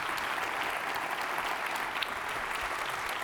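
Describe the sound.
A church audience claps to welcome a newly arrived family. The applause is a continuous, even wash of many hands at a fairly soft level, lasting a few seconds with no voices standing out.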